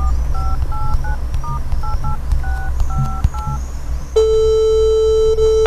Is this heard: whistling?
no